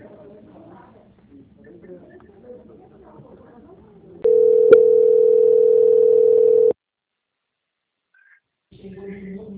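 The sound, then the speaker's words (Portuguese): A steady phone-line tone during a call transfer, a single loud mid-pitched hum held for a couple of seconds, with faint low sounds before it and soft voices resuming afterwards. “Eu vou transferir o seu contato para o controle de qualidade.”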